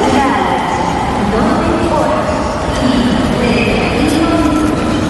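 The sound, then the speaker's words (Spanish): Train station ambience at Atocha station in Madrid: a steady, dense wash of rail and crowd noise with murmuring voices, holding an even level throughout. “Suena a casa de Carmen, pero este es el sonido ahora mismo en la estación de Atocha en Madrid.”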